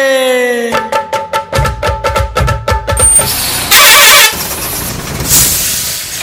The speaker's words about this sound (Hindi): ओए छोटू। जी भैया। इधर आ, जरा मेरे ट्रक के टायर का पंचर तो लगा दे।